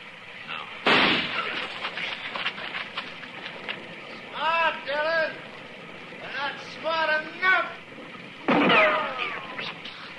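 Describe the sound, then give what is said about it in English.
Gunshots fired at a tree during a standoff with an armed man: two sharp, loud blasts, one near the start and one near the end, with men talking in between. “I'm going to flip a shot at the tree”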